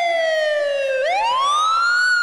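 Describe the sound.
An ambulance siren wails loudly on its own. Its tone glides slowly downward, then sweeps back up in a rising whoop.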